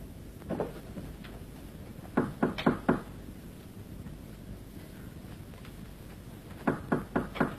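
Knocking on a door in a traditional Chinese opera scene: a lone knock, then two quick runs of four sharp raps, each run evenly paced. A faint steady hiss sits underneath.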